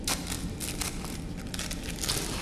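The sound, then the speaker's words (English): Plastic packaging crinkles as a needle is unwrapped, a continuous run of crisp, dense crackles at a steady level with many small sharp bursts. “I look the other way when he unwraps the needle”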